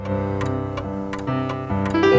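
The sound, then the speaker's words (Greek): A clock ticks in a steady, even rhythm of sharp clicks over a low, sustained tonal hum. “Το ρολόι γιατί πάει τάπα. Μήπως είναι και αυτοβόμβα.”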